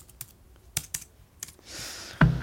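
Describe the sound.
Typing on a computer keyboard while chatting online: a few sparse, sharp key clicks spread irregularly, then a brief soft rushing noise and a heavier thump near the end, with no voices.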